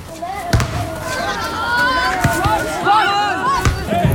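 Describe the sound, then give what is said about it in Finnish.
A junior football match in play: a few dull thuds of the ball being kicked over a constant bed of children's shouts and chatter from players and onlookers. “juniorijalkapallo kuulostaa tältä.”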